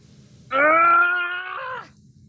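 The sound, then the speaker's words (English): A strained human groan from someone trying and failing to pry open a cabinet with a crowbar. It is one sustained voiced effort lasting over a second, fairly loud, and it drops off at the end. “Blue is grunting and groaning as they try unsuccessfully to pry open a cabinet with a crowbar.”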